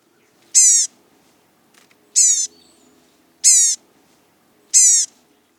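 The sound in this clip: Four high, buzzy call notes of a blue-gray gnatcatcher from the eastern population, each short and clearly downslurred, are evenly spaced over a faint low background hum.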